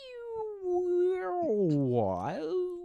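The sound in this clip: A voice imitates a theremin with a sustained, warbling tone that glides downward, dips low, then swoops back up with wobbly vibrato, heard alone for about three seconds.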